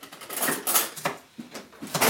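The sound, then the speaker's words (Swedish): Metallic clattering and rattling from someone rummaging through a kitchen drawer for a fork while cooking, with many irregular light clinks and scrapes, fairly quiet and continuous. “Ska jag gräva i dina lådor för att hitta en gaffel.”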